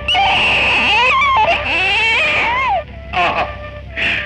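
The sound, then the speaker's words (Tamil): A newborn baby crying: loud, high wails whose pitch bends and slides, a long run of cries followed by a few shorter bursts with brief pauses. “என்ன இனிமையான குரல், அழுகைக்கே இவ்வளவு இனிமை”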